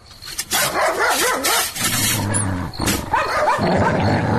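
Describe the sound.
A dog barking rapidly and repeatedly at a door, loud sharp yips and barks running almost continuously with brief growly edges between them.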